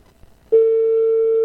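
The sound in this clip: A telephone line tone during a call: a steady, loud single-pitched tone that starts abruptly after a brief quiet moment and holds unbroken to the end.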